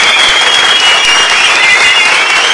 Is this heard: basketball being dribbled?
no